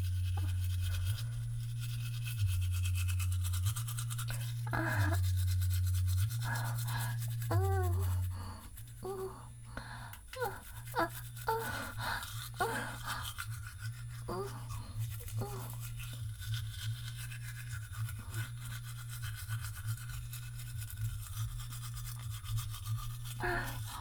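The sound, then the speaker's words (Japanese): Firm-bristled toothbrush scrubbing the surface of a tooth, heard as many rapid, steady back-and-forth brushing strokes. Low, droning background tones sit underneath at the start. “今磨いてるのは固めの歯で、歯じゃない、歯ブラシで歯の表面を磨いてるイメージです。”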